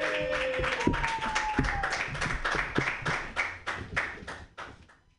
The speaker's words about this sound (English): Put your hands together yeah.